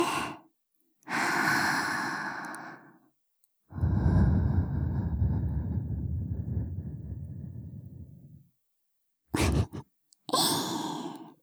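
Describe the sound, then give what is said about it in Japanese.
Soft, breathy blowing into a listener's ear: several airy whooshes of uneven length, one long sustained exhale among shorter puffs, separated by silent gaps, with no talking. “女の子にお耳ふうふうされるの気持ちいいでしょ。”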